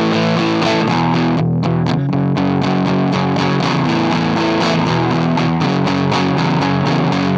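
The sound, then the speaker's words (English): Distorted electric guitar played on a Gibson Firebird reissue of the 1963 design, loud, driven chords with a steady run of rhythmic strummed attacks and a thick, gritty tone throughout. “Given that sound that I'm making come out of this thing, who do you suppose Gibson designed this for and hoped would use it in 1963?”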